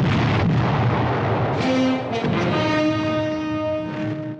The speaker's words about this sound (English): The mortar fire comes thick and fast, with fireballs lighting up the night sky and clouds of smoke.